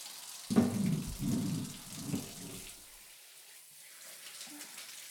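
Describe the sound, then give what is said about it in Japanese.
Shower water sprays on as someone is being washed, a soft hissing splash that starts after a moment, runs for a few seconds with faint patter, then fades to near silence. “じゃあシャワーかけるわね。”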